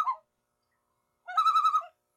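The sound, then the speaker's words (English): Call of a common loon: a brief clipped note, then a pause, then a clear, quavering, pulsing cry of about half a second, heard alone. “that there is the sound of the loon”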